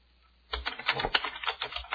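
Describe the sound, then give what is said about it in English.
Rapid typing of a root password on a computer keyboard: many quick, uneven keystrokes clatter in a dense run after a short silence, with no talking. “Whoops, I typed in the wrong root password.”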